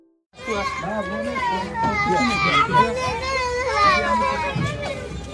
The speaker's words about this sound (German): Was ihr hier hört, sind Kinderstimmen aus Afghanistan. Die Kinder weinen, die Kinder sind unruhig.